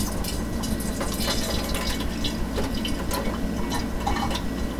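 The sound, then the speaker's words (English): Liquid is poured steadily, with some spilling into a sink, making a continuous, even splashing rush from start to finish with no voices. “I'm going to just take a chance and pour.”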